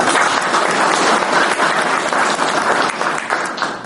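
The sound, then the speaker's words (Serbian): Audience applause at a celebration rolls on as a dense, steady wash of clapping and tapers off slightly at the very end. “zavista bih ovom prilikom volio da im uputimo jedan aplauz.”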